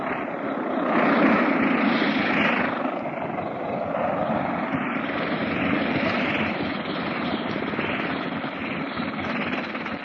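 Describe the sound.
A propeller aircraft taxiing on the ground: a steady, fairly loud engine drone with gentle swells in loudness, continuing throughout with no clear voices.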